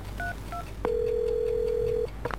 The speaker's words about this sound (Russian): Так, я должна позвонить. Где мой телефон? Я должна позвонить. Вот телефон